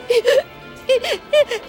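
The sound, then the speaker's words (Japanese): A voice sobs and whimpers in several short, wavering wails with sliding pitch, grouped in bursts separated by brief pauses. “今度は泣いてる。”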